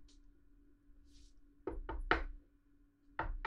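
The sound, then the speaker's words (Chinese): Knocking on a door, faint and hollow: a quick run of three raps, then a further knock after a short pause. “有人敲门。”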